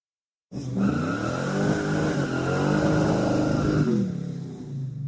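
A car engine revs hard as the vehicle accelerates and swerves sharply into a narrow side street. The loud, continuous drone climbs and holds steady, then drops off toward the end.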